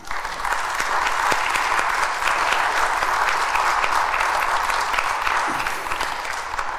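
Audience applause for a gentleman at a council meeting: dense, steady clapping from many hands, sustained at an even loudness throughout with no voices over it.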